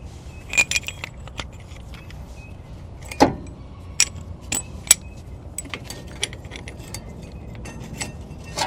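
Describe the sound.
A caliper tool is turned to push a brake caliper piston back in for new brake pads, giving scattered sharp metallic clicks and light clinks at irregular intervals over a quiet, low background.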